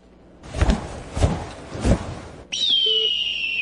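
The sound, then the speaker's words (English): A bird call heard as a high, steady whistle that drifts slightly lower and holds to the end. It follows three dull, low thumps. “That's not just a bird.”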